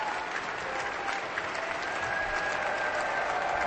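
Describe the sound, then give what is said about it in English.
An audience applauds after an Aspen Festival Orchestra concert in the Klein Music Tent while the soloist and conductor bow. Dense, even clapping continues without a break. “Abel Salocier and Stéphane Deneuve are bowing to the audience. And then each one turns to the orchestra and applauds them.”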